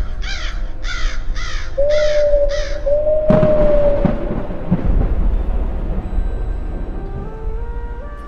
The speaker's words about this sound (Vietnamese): nơi nơi tiếng quạ kêu lên thất thanh